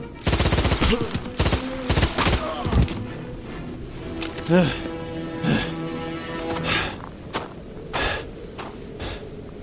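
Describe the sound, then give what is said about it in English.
Assault rifle gunfire in a video game, loud dense rapid bursts crowding the first few seconds, then thinner scattered shots and sharp hits, with gasps and vocal sounds mixed in. “Assault rifle bullets nearly tore them in half.”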